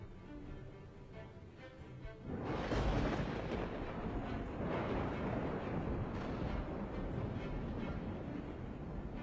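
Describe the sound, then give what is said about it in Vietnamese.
Lightning bolts striking repeatedly out of thick grey smoke in a fantasy battle, heard as a deep thunderous roar that surges in after a quieter stretch and stays loud and continuous, rumbling without clear separate cracks. “Từ trong làn khói xám mù mịt, những tia sét liên tục đánh xuống.”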